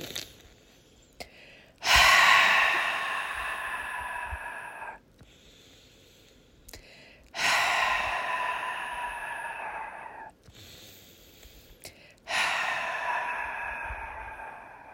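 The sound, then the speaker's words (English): Three deep breaths exhaled loudly for relaxation, each a long, breathy whoosh lasting a few seconds, separated by quieter gaps with faint inhales. “We're going to take three deep breaths and exhale loudly. This will relax our body.”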